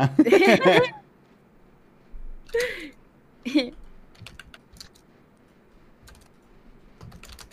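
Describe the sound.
Computer keyboard typing as a message is written out for Discord: scattered light key clicks follow a few bursts of laughter and voice early on.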